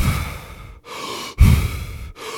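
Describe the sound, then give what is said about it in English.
Deep, rapid hyperventilation breathing from a breathing exercise, with roughly one-second inhales and exhales. Loud, forceful breaths follow each other in quick succession, each separated by a brief pause, with no other sound. “deep hyperventilation, where you do about 1 second inhale and a 1 second out exhale, and you do about 30 of those, and it sounds a little bit like.”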